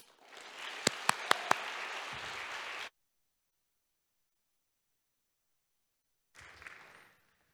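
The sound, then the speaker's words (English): A church audience applauds to welcome a guest pastor. Steady, dense clapping lasts about three seconds and then cuts off abruptly. A short, softer burst of applause follows after a long silence. “I heard a lot of whoops out there, so good to know we're not just in rice land.”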